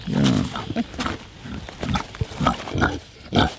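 Deep grunts from a breeding boar pig, heard alone. Several uneven, throaty snorts and grunts come in short bursts with brief pauses between them.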